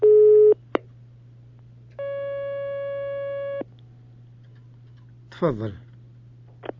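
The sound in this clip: Telephone line tones as an incoming call connects during a phone-in question session: two steady electronic beeps, the first short and the second about a second and a half long, over a constant low hum, with faint clicks and a brief voice.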